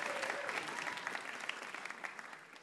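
Audience applause for a quiz winner at a live quiz event, a bright, continuous patter of many hands clapping at a fairly even level throughout.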